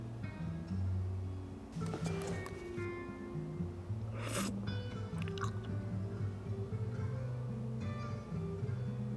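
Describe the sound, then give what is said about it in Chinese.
Chewing cake flavoured like river-snail rice noodles: a few soft, wet, squishy bites and mouth sounds, faint and sparse over a low steady hum. “还有这个蛋糕你也尝一尝。对，也是螺蛳粉味的，我想应该会比奶茶更好吃一点。”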